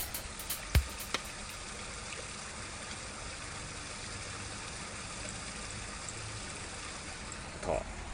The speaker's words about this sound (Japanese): 今ベランダに出ましたけれどもね、聞こえますでしょうか、この川のせせらぎ